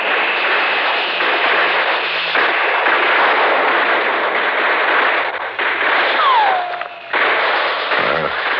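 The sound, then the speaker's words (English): Gunfire and bullets rattle through a war scene in a loud, dense, continuous roar of shots and blasts, with a falling whistle sweeping down near the end. “Those are real bullets they're shooting at us over there.”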